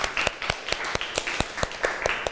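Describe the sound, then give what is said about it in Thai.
Students in a classroom clap for a classmate who has just answered a question, a steady, evenly spaced run of sharp, distinct claps at a moderate level. “ค่ะขอบคุณค่ะปรบมือให้เพื่อนหน่อย”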